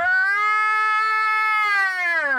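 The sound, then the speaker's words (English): A human voice imitates the cry of a big cat: one long, loud, sustained wail with rich harmonics that holds steady and then dips slightly in pitch at the end. “that sounds like a big cat”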